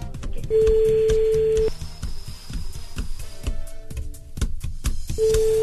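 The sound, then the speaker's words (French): Telephone ringback tone from a call placed during a live radio phone-in game: two long, steady tones separated by a pause of a few seconds, the second cut off at the end, sitting under loud, busy music. “J'en peux plus, cette musique. C'est une sonnerie.”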